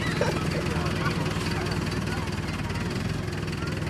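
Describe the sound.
Heavy vehicle engine running steadily as it reverses across a dusty meadow, soot flaking from its exhaust: a loud, continuous low rumble under a broad, rough noise layer with no distinct breaks.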